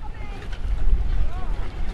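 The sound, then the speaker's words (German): Wind and water at a small harbour where children sail small dinghies, a steady low rumble with gusting wind noise across the microphone and faint voices now and then. “Auf dem Wasser übt eine Gruppe von Kindern das Segeln in kleinen Jollen.”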